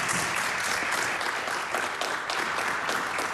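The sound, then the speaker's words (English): Faculty and students from State University of New York campuses applaud as a live audience at the University at Albany, many hands clapping in a dense, steady wash at an even level, with no voices. “As our radio audience can hear, we are before a live audience here. We're recording today at the University at Albany before a live audience of faculty and students from 20 State University of New York campuses across the state.”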